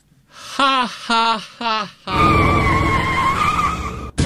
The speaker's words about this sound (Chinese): 我刚出门就让汽车给撞了。